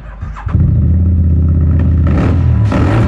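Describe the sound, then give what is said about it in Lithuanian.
A Street Adventure motorcycle or scooter engine revs: a loud, low, rough rumble kicks in abruptly and holds steady, then surges twice with brighter throttle bursts toward the end, with no voices. “Tai Vauč, tavo naujas kelionių draugas. Street Adventure motociklas ar motoroleris.”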